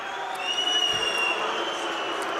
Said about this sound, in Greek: Αποδοκιμασίες ένθεν και ένθεν από τους φιλάλους και του ΠΑΟΚ και της Δυναμό.